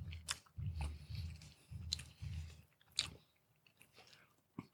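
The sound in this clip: Chicken wings from a fast-food chain are chewed in soft, rhythmic, moist bursts, with a few sharper crunchy bites standing out. The sound is faint.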